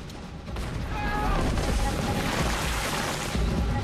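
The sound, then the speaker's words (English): Grenades explode in a battle between soldiers and rebels: an abrupt burst of loud, dense roaring noise rises suddenly and rumbles on steadily for several seconds. “Rebels are sent flying into the air when the grenades go off.”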